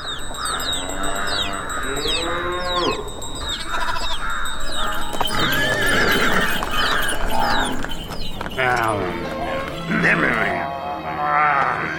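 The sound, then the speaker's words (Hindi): Horses, goats, buffaloes and braying donkeys crowd an animal pound, their wavering bleats and cries overlapping continuously at a steady, fairly loud level. “ये घोड़े, ये बकरियां, भैंसे और ये ढेंचू ढेंचू करते हुए गधे सभी आजाद हो जाते।”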